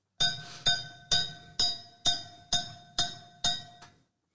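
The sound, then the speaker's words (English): Cowbell played by an Alexa smart speaker: nine bright metallic clanks struck at an even, moderate pace, each ringing briefly and fading, the last one softer. “Alexa, more cowbell. Sounds like you've got the fever. And the only prescription is more cowbell.”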